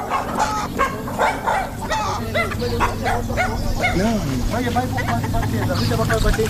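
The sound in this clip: Dogs on a farm bark and yip in a busy, continuous run of sharp barks mixed with high, whining yelps.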